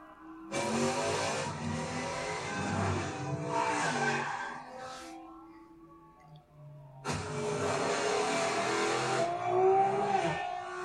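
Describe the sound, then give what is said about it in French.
Engine roar of a Plymouth Road Runner car driving, heard in two long, loud stretches with a quieter lull between them. Shifting engine tones rise and waver throughout. “Si, je la reconnais. C'est une Roadrunner.”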